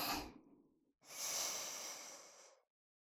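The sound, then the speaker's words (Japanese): A deep breath drawn in during a relaxation exercise, a long, airy, hissing inhale of about one and a half seconds, preceded by the fading tail of an exhale and a brief pause. “深呼吸。吸って、”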